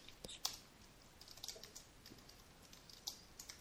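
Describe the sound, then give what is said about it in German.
Computer keyboard typing: faint, irregular light clicks, a few scattered taps and short bursts over a few seconds, with no talk over them. “Weißt du, schreibst du das wohl auf? Ja, ich habe es gerade aufgetippt.”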